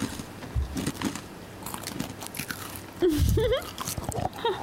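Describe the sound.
People chew and crunch crisp snacks, with a few sharp bites and scattered crunchy chewing sounds of uneven loudness.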